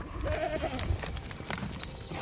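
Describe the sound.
A goat bleats from a herd of dairy goats being led two kilometres uphill to the heath after morning milking. One wavering, mid-pitched bleat stands out early over steady low background noise.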